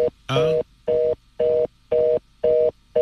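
A telephone signal after dialing a wrong number repeats as a steady on-off tone, about six evenly spaced beeps at one pitch, fairly loud, with the last one cut short.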